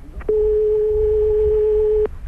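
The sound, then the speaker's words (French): A telephone line ringing tone, one steady mid-pitched hum lasting nearly two seconds that starts and stops abruptly. “Pourquoi vous ne décrochez pas? Écoutez, vous entendez sonner, là.”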